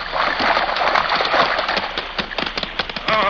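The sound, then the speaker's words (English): A horse swims across a river, churning the water into a steady rush of splashing with irregular sharper slaps and a louder surge near the end. “What a magnificent animal. Come on, Silver. And under his master's urgings, Silver swam straight for the opposite shore without faltering.”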